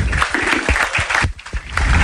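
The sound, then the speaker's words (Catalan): Loud audience applause at the launch of a local competition in Lleida, a dense continuous clapping with a brief dip midway before it swells again. “Un aplaudiment, sisplau.”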